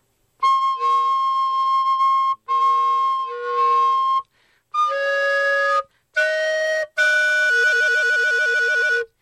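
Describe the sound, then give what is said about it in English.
A wind instrument plays several sustained, steady notes at soft and loud strength. The final long tone splits into two pitches sounding together, producing a rapid, wavering beat. “And if you hit the middle between those two things, you can have both notes at the same time.”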